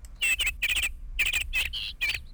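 Little bird chirping in a quick series of bright, high-pitched tweets, with short bursts and brief pauses between them.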